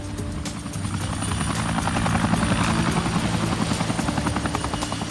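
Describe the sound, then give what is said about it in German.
A small blue two-seater helicopter circling overhead, its rotor giving a loud, continuous rapid chop over a steady engine drone. “Ein Geräusch hatte uns geweckt. Ein Helikopter. Ein kleiner blauer Zweisitzer mit dem roten Parnassus-P.”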